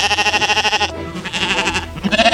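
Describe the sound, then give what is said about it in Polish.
Sheep bleating while grazing on dry grassland, a few loud, wavering calls with a quick throaty tremolo, the first two separated by a short pause and a third starting near the end. “Zielone kosiarki, czyli owce, tak naprawdę zajmują się tym, co lubią najbardziej, czyli jedzą trawę.”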